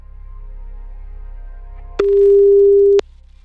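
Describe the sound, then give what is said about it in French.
A telephone ringing tone on a call: one steady, clean, mid-pitched beep lasts about a second, preceded by a faint low hum. “ça sonne chez toi là? T'entends la sonnerie?”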